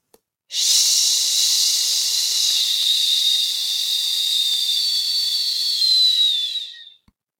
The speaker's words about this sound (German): Jetzt atme tief ein und atme fast ohne Ton aus dem Laut Sch aus.